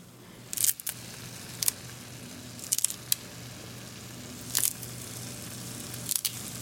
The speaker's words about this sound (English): I could have chopped the cilantro, I'm actually just tearing it up.